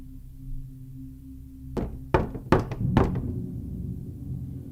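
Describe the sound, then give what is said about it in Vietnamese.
Knocking on a door at night: a few heavy, hollow knocks in quick succession over a steady low hum, then the hum continues alone. “Ở ngoài cửa vẫn có tiếng gõ cửa vang lên. Trong đêm vắng tịch liêu, tiếng gõ cửa nghe vô cùng vang vọng và đáng sợ.”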